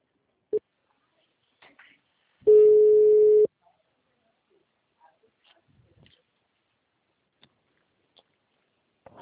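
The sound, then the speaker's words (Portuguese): A telephone tone after a dropped call sounds once as a steady, mid-pitched beep lasting about a second, set among faint clicks and near silence. “a ligação caiu”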